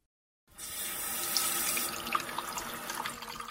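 Tap water runs to fill a bath, starting abruptly after a short silence and then continuing as a steady, bright rushing splash with no voices.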